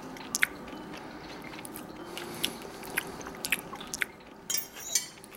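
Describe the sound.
Someone biting and chewing a slightly bloody piece of food, with several faint, sharp crunchy and squishy bites scattered over a quiet background.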